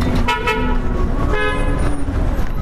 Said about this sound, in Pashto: دلته ډیری موټران دوری دوری تیریږي.